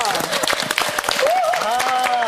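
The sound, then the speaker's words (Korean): Applause from an audience welcoming a guest of honour: many crisp, rapid claps merge into a steady crackle that lasts throughout, while a voice talks over it. “자, 김치베이비 1호 손양영 선생님을 박수로 맞아주시면 고맙겠습니다.”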